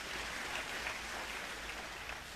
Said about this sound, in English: We can clap for that, because it almost wasn't.